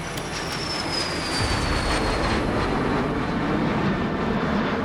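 A MiG fighter jet taking off produces a dense, steady roar of engine noise. A thin, high whine drifts slowly downward in pitch, and the rumble grows slightly louder after the first second.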